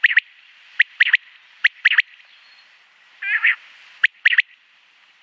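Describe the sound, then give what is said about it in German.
Birdsong in sharp, high three-note phrases, rendered as 'pick per wück', repeats about three times. A brief buzzy, mewing note sounds between them, with no talk. “Ja, das war der Gesang des Vogels. Auch mit Pick per Wück abgekürzt oder als Merkspruch. Oder Bück den Rück, finde ich auch sehr passend.”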